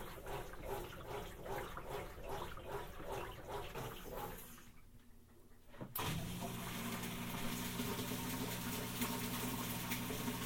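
A washing machine finishes a short agitation of rhythmic sloshing and churning. After a brief near-silent lull, the drain pump kicks in abruptly with a steady humming whir over continuous rushing water, all fairly quiet.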